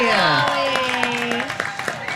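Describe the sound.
An audience at a fair cheers with raised, gliding shouts, and scattered claps grow sharper and more frequent in the second half.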